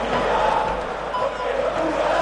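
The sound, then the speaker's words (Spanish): Argentine football players singing together in front of a stand of their own fans at the World Cup final: a loud, continuous mass of chanting voices with no breaks. “Esto que cantan son los jugadores argentinos.”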